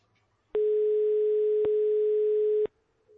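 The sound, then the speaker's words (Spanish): Steady telephone dial tone heard while a call is being placed, holding one constant buzzing pitch for about two seconds on its own, with short clicks at its start, middle and end. “pues para todos ellos hago la llamada, charlo con José María”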